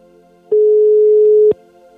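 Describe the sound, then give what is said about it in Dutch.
A telephone ringback tone sounds while a listener is being called on her birthday: one clean, steady mid-pitched beep lasting about a second, alone over a faint hum. “Ja, we gaan een jarig Job bellen.”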